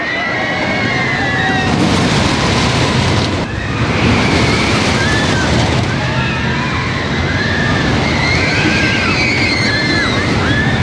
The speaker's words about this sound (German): Eine ganze Stufe mehr bietet schon die Holzachterbahn El Toro, die seit 2009 Fahrspaß bietet, inklusive Geräuschkulisse.